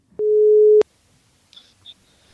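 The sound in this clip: Telephone ringing tone while placing a call: one steady, mid-pitched tone holds for about half a second, followed by a few faint, brief high chirps.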